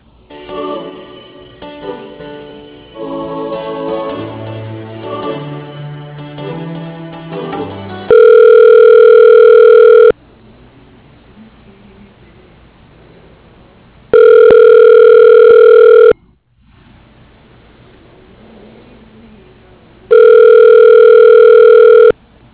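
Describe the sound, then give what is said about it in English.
A telephone ringback tone sounds as a call is transferred to a voicemail extension: three steady, two-second ring bursts separated by quiet gaps, after several seconds of softer tonal sounds. “He's on an airplane, but I can transfer you, and you can leave him a message if you want to.”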